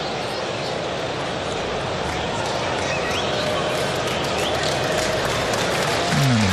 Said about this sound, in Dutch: grote applaus van het publiek. Eentje om te koesteren.